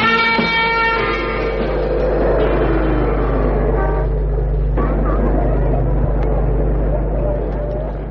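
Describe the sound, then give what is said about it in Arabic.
A car horn sounds in loud, sustained honks at the start, then gives way to a steady hum of traffic mixed with crowd babble. “بقالي ربع ساعه عمال ازمر لك، ما سمعتش كلاكس ولا ايه؟”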